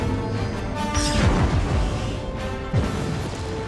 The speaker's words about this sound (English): I love these shots of her in the sky blasting. Yeah, we had a great second unit director that did a lot of this photography, a lot of this battle photography, and our mechanical effects team did such a great job with the explosions